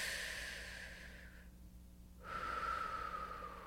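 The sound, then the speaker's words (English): A slow, deep breath taken during a tapping exercise: a long, soft rush of air, a pause of under a second, then a second, slightly louder airy stretch. “Good, take another deep breath.”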